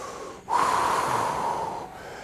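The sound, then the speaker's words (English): A deep breath taken during an exercise workout, ending in a long, steady exhale through the mouth that sounds airy and fairly loud and lasts more than a second before fading. “Deep breath. Exhale, drop the left.”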